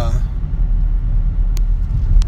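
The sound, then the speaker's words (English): Steady low engine rumble and road noise inside a moving car, continuous and fairly loud throughout, with a dense low-end drone and no clear breaks. “I'm driving home because I got to get my kids ready”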